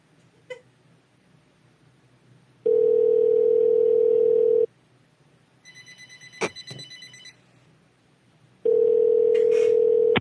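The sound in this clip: A telephone ringing tone sounds during an unanswered call. Two long, steady bursts of the same tone are separated by a pause, with a few brief, quieter noises in between.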